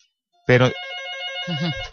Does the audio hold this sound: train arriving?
no